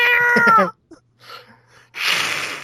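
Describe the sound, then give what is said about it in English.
A human voice imitates fighting cats: a loud, wavering yowl that drops in pitch as it ends, then after a short gap a harsh, breathy hiss. “Is he like got cats duct taped to him, or is he pig pen? Well, it's like the cats are fighting.”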